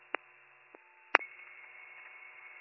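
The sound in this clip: Telephone line tones while placing a call: a few faint clicks, then a quiet, steady high-pitched tone that holds to the end.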